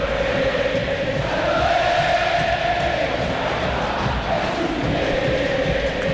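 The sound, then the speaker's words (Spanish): River Plate supporters roar in the Monumental stadium during a match, a dense, sustained crowd noise of cheering and shouting voices that swells slightly and holds throughout. “Cuando así se levanta la gente de River, escuchan al público millonario aquí en el Monumental.”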